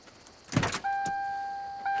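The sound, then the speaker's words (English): A car door thuds shut as a man gets into his car, followed by a softer knock and then a steady electronic warning tone that holds to the end. “He gets into his car, and Gomez does likewise.”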